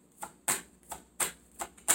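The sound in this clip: Tarot cards are shuffled and drawn with quiet, crisp snapping clicks. About six clicks fall in loose pairs, each set apart by short pauses, with no voices.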